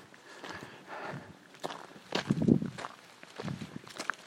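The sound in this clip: Footsteps walking on grass make a faint, uneven series of soft, muffled steps with light rustling, and no voices are heard.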